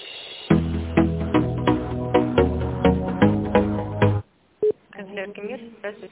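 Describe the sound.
Tinny on-hold music plays over a telephone line while a call to a finance department is transferred. It is a steady, rhythmic melody of changing notes that stops abruptly, followed by a person speaking.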